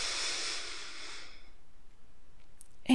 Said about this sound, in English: and I just want you to take some deep breaths while I use my stethoscope, okay?